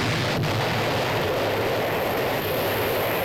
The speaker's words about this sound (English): Well, your missile did indeed blow up, I'll give you that, but it missed the target.